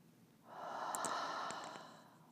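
A single slow, soft breath is drawn during a guided breathing exercise, a gentle airy rush that swells, holds and slowly fades, faint and alone.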